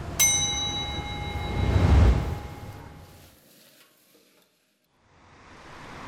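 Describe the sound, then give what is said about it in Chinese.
Pork kidney and tripe sizzle and scrape as they are stir-fried in hot oil in a wok over a high flame, Hunan style. A metal clang with a ringing tone opens, the sizzle swells, then fades to near silence before returning. “娇嫩的腰花与脆爽的黄喉在锅热油宽火旺下翻炒几十秒即可”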